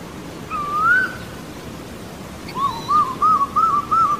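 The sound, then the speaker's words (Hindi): An Asian koel calls with one clear, rising whistled note, then after a pause gives a quick run of repeated, similar fluting notes, all bright and tonal over a faint, steady background hiss. “उम्मीद है कि ये कोयल की आवाज़ आपको disturb नहीं करेगी।”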